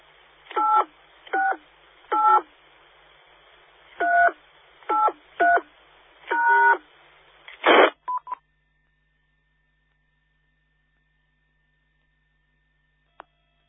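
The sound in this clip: A telephone line being dialed and connected: seven touch-tone digits sound at uneven intervals, then a harsh burst and a few short tones, a long faint steady tone, and finally one sharp click after near silence.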